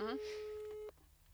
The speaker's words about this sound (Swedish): Jag ringer min bästa kompis pojkvän och så ska han säga ja eller nej.